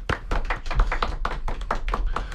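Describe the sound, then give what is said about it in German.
Sharp hand claps ring out for two hosts of an underground radio show, a quick, even run of many crisp slaps at a steady beat with no voices. “Darum lasst uns die Gläser heben oder die Dosen, die Regler aufdrehen und diesen beiden tapferen Kapitänen des Radiodampfers applaudieren. Applaus”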